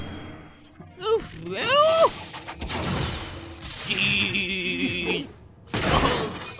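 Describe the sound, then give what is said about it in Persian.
A sharp shattering crash as something breaks, mixed with sliding voice-like tones and clatter. Another bright burst follows near the end. “من شکستم ولی بازم تو باید بخری.”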